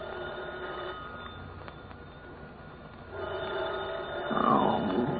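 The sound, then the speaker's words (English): A telephone rings over a muffled, noisy background, growing louder in the second half. “I was working on my fifth drink when the phone rang.”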